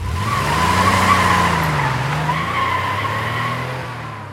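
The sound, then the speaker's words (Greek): A motorcycle engine starts and pulls away, a low continuous drone whose pitch climbs, then sinks and evens out as the machine drives off, loud and steady with no voices. “Έβαλα μπρος και απομακρύνθηκα.”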